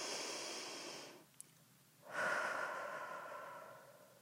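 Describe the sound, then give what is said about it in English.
A deep breath taken slowly and softly: a long airy inhale, a brief silent pause, then a long breathy exhale that fades gradually, with no talking. “So, deep breath.”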